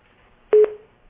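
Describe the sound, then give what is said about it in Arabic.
A single short electronic tone on a phone line as a caller's call cuts off, one steady beep lasting about a third of a second, framed by two brief clicks, with no talk. “انقطع الخط.”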